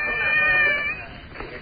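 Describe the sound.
A voice imitating a cat's meow gives one drawn-out, nasal, high-pitched call that fades into soft background noise.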